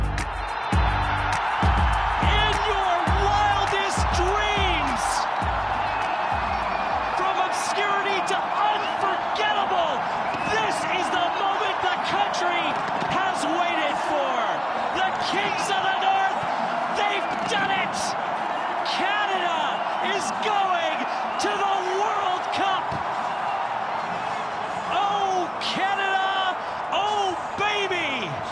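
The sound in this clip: A Canadian crowd celebrates after a 4-0 Sunday-night win over Jamaica that clinched World Cup qualification, with many voices cheering and chanting in a dense, continuous roar and a few sharp bangs early on.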